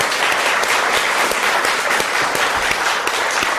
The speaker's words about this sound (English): let's give it up for what a spectacular speech and opening for World AIDS Day